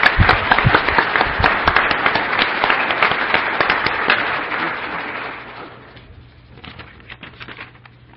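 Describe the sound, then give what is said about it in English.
Applause for students and judges at an academic student competition: loud, dense clapping from a large crowd holds for about five seconds, then dies away to a few scattered claps. “So I just want to give everybody a round of applause for”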